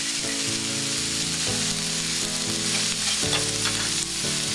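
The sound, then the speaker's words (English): Mushrooms sauté in a pan to brown, giving a steady, even sizzle that carries without a break alongside a music bed of held notes. “And then my mushrooms. And let them saute until they get a little brown.”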